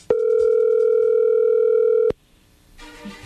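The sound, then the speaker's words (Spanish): Steady telephone dial tone as a call is being placed: a loud, even, unbroken tone holding for about two seconds before cutting off sharply, followed by faint noise on the line. “ahí se está marcando, ¿ok?”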